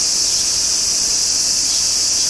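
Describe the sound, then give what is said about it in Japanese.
Cicadas sing unseen inside a tree, a continuous shrill, high-pitched buzz that stays even in loudness and sounds alone. “セミは見えないよ。木の中にいるから。セミの声が聞こえてもセミはいない。”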